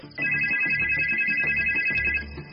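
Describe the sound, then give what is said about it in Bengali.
A telephone rings in the next room with a steady electronic warble that lasts about two seconds and then stops. “উত্তর দেবার আগেই পাশের ঘর থেকে ফোনের ঝংকার শোনা গেল।”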